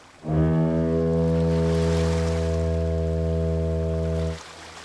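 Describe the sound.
A large black ship in a bay sounds one long, loud, booming horn blast: a deep, steady, harmonic tone that holds for about four seconds and then cuts off, with no voices.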